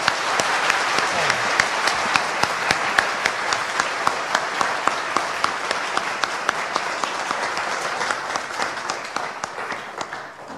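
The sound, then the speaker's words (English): Sustained audience applause welcomes a lecturer to the stage at a 2018 public lecture. Dense, steady clapping runs unbroken for the whole stretch and stays loud throughout. “So please join me and offer a warm welcome to Professor Jürgen Moltmann.”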